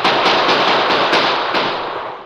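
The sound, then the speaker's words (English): Rapid gunfire from drawn handguns in a Western adventure drama: a quick series of sharp cracks over a loud, steady hiss. “The masked man and Indian turned from the hill trail toward the valley. Drawing their guns, they opened fire.”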